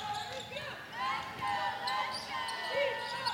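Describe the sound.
A basketball being dribbled on court during a basketball game, late in the contest, with sneaker squeaks and steady crowd noise throughout.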